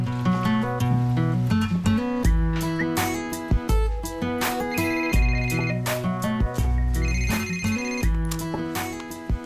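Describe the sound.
A phone ringtone plays a bright synthesized melody in loud, repeating short phrases over punchy low beats, ringing on its own with no voices.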